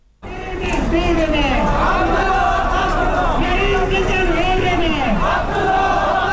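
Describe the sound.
Thousands of Abdullah Abdullah supporters chant loudly in unison at a protest march in Kabul against alleged election fraud. Rising and falling slogans and cries run continuously after a brief quiet start.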